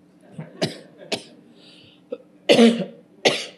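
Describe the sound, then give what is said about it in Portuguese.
Coughing from an allergic tickle in the throat: a series of short, dry coughs and throat clearing in irregular bursts, one louder and longer burst standing out near the end. “Famosa alergia cosquinha na garganta, desculpa, viu, gente? Precisando de um otorrino, tá?”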